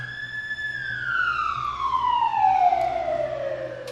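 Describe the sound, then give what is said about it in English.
A fire truck siren passes by in one long wail that slides steadily downward in pitch and stays loud and clear from start to finish. “And that was a fire truck going that way.”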